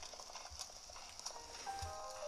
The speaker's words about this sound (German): Mein Pferd hat mich einfach abgeworfen.